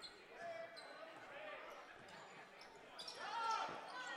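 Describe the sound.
Basketball dribbled on the court during a high school sub-regional game in Alabama, a few dull bounces under steady commentary and gym crowd noise.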